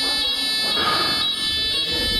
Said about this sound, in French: Un imprévu, une alarme incendie.